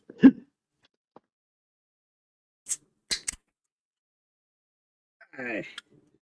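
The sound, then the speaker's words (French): Someone takes a drink in a quiet space: a few short, sharp gulping clicks separated by silence, then a brief voiced sigh afterward. “un petit word de notre sponsor. Non, non, on n'est pas sponsorisé, mais moi j'ai soif. Petit drink.”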